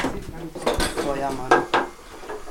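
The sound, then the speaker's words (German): Cut curd being stirred during cheese making, with irregular clinks, knocks and scrapes of a utensil against the vat and a few sharper hits among softer sloshing movements. “Jetzt haben wir die Galerte geschnitten, das ist immer noch kein Käse. Käse wird es erst, wenn wir es einmal umrühren.”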